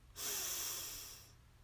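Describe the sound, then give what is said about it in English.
A single long breath drawn in during a guided meditation: a steady, airy hiss that swells quickly, holds for about a second and slowly fades, with no talk. “We take a breath in, breathe in,”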